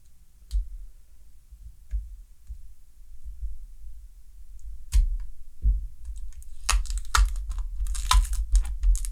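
Tearing at a taped package during an unboxing: scattered soft clicks at first, then a burst of rapid ripping and crinkling bursts filling the last few seconds.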